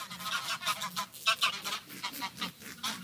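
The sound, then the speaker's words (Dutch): Geese honk as they fly over: many quick, fairly faint honks and calls in an irregular, overlapping series. “net als deze ganzen overvliegen.”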